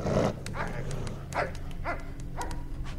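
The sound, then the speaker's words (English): Dogs barking and whining as they pace around a living room and kitchen, several short barks with whimpering, sliding tones spaced out over a low, continuous background. “The dogs pace around the living room. Some enter the kitchen, sniffing at the spilt food.”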